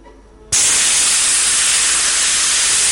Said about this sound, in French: J'ai la bombe lacrymogène, mais ils ne la voient pas. Attention, je vais vaporiser.